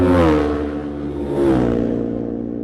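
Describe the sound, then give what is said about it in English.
Two-stroke 250cc racing motorcycles pass during a road race, their engines rising in two loud swells, each trailing off as the pitch falls away. “You hear that distinctive note of the two-stroke. Two more machines into our eye line. Let's have a listen.”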